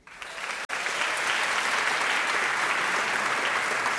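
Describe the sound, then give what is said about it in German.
Audience applause rises quickly after a short opening, breaks off for an instant, then settles into steady, dense clapping that continues to the end. “Und nachdem sie so laut applaudiert haben, können sie eigentlich direkt wieder weitermachen.”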